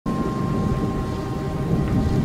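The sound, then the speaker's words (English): Low thunder rolls and reverberates around an airport, a continuous dense rumble with a hissing wash layered over it and a faint steady tone running through. “As soon as it gets dark, thunder begins to reverberate around the airport.”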